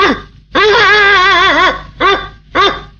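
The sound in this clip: A voice imitating a big dog barking: one long, wavering, drawn-out bark-like call, then two short sharp barks, all loud and alone.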